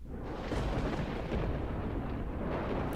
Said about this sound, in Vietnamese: Tia sét đánh xuống đất, mặt đất rung chuyển